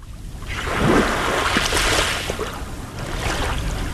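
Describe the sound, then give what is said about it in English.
Waves lap onto a sand beach on the Lake Michigan shore in a lakeside suburb, a broad rushing wash that swells within the first second, eases slightly, then surges again near the end. “That is the sound of Atwater Beach in Milwaukee's North Shore suburb of Shorewood. A strip of sand separates land from the blue waters of Lake Michigan.”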